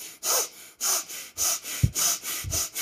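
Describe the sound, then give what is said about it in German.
Quick, forceful breathing in and out through the nose, a rapid, even series of hissing sniffs and exhales with a steady rhythm, heard alone. “Dann atme schnell durch die Nase, 3-mal ein und aus. Also so.”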